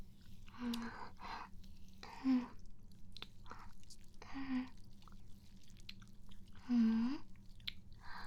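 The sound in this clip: Someone chews and tastes an unknown salty, slightly bitter food that smells of the ocean. Faint wet chewing and mouth sounds continue throughout, with a few louder bites standing out.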